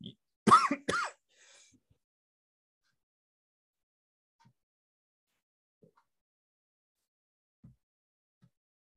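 Coughing and throat clearing: a couple of harsh, loud rasping bursts close together, followed by a faint trailing rasp and then near silence.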